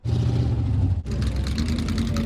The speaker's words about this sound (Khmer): នេះជាការប្រណាំងរថយន្តបុរាណ